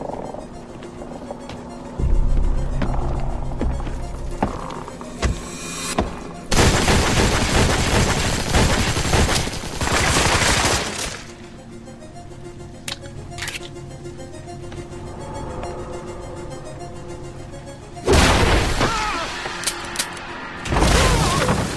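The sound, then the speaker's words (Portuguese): Gunshots in a dubbed animated cartoon: several loud, sustained bursts of rapid gunfire, separated by quieter stretches of lighter tones and noise. “Cuidado, você vai atirar no... Mac, eu acho que atirei.”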